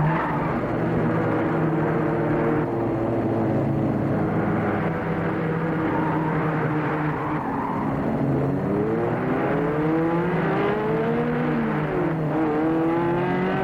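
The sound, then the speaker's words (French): A car arrives with its engine running steadily. The engine note hums on continuously, then wavers up and down in pitch as it nears, loud and without talk. “C'était le bruit de la voiture d'Hélène qui me réveilla.”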